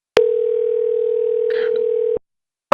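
A telephone tone from a phone: a steady, unwavering single-pitch tone holds for about two seconds and then stops. After a brief silence, another tone starts right at the end.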